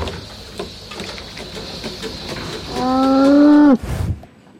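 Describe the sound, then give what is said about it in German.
A cow in a robotic milking barn gives a single loud, drawn-out moo, harmonic and rising slightly in pitch. It sounds over a steady mechanical hum and low background machinery noise. “Der Melkroboter melkt die Kuh. Ihr Kalb trinkt die Milch aus einem Eimer mit Sauger.”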